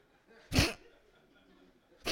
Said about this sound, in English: I'm convinced every serial killer is just one of these people that held in all their sneezes like,